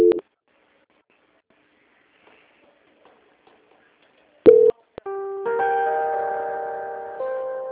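Telephone line tones after a dropped call transfer: a short tone at the start, a brief burst midway, then sustained, layered electronic tones that change pitch and run to the end.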